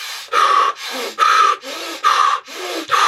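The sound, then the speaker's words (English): Rapid breathing as a breathing exercise, in through the nose and out through the mouth: a quick, even run of hissing breaths, strong and softer ones alternating with no pause between them, with no talking. “Another breath we can do in life is to breathe quickly, breathe fast, such as this.”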